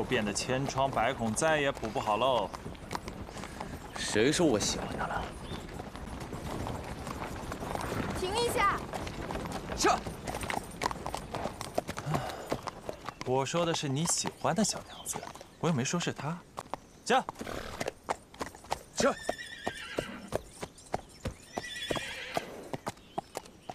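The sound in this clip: Hooves of a ridden horse clip-clopping in a steady rhythm, joined by a horse neighing, while people talk over the scene. The hoof beats become sharper and more distinct in the second half.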